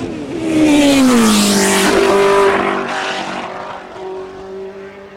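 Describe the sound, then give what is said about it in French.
A car passes by at idle with a low, humming engine tone. It swells to a loud peak, then fades as the pitch drops slightly. “Passage au ralenti.”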